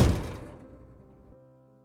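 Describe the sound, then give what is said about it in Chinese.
A house door opened as someone leaves: one dull, solid thump that fades away over about a second and a half, with nothing else heard. “发现房子里真的没有人后，开门离开。”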